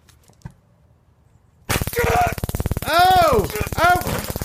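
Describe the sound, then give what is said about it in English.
A stun gun being switched on starts abruptly after near-silence, a loud, rapid electric crackle of dense buzzing snaps, while voices shout over it. “All right, here comes the stun gun. Here comes the stun gun.”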